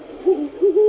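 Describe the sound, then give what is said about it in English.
A great horned owl hoots a few times in quick succession, each call deep, soft and tonal with a low, steady pitch. No other sounds are heard. “That's the call of the great horned owl.”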